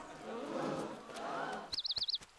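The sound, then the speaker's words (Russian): A flock of white doves is released and flies away: a soft, wavering wash of sound gives way to a quick burst of pulsing wing flutters, with a faint high warbling chirp above them. “Глашатай открывает дверь кареты, Фиона и Шрека скрывает выпущенные стаи белых голубей. Голуби улетают.”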